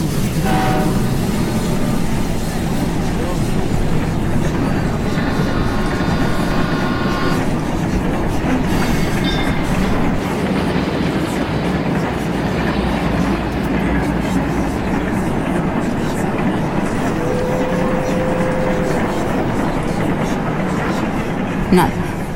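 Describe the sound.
A train rolls on with a loud, unbroken rumble and rattle of carriages that continues throughout, broken by a couple of brief tonal sounds.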